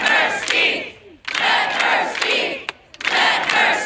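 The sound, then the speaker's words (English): Montanans chant in unison at the state House of Representatives, demanding that Democratic Representative Zooey Zephyr be allowed to speak. Three loud bursts of massed shouting are split by brief pauses. “that is the sound of Montanans earlier this week demanding that the Republican leadership of the state's House of Representatives allow Democratic Representative Zoe Zephyr to speak.”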